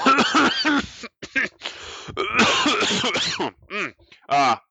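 Coughing and throat clearing from a person, in short, loud, rough bursts with brief gaps and some voiced vocal sounds between them.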